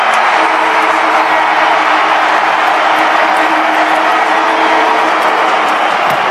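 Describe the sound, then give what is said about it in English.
Stadium crowd roaring at the end of the 2011 rugby league season, Manly beating the Warriors: a loud, dense, unbroken wall of crowd noise. “that sound you just heard in the background is the end of the 2011 Rugby League season”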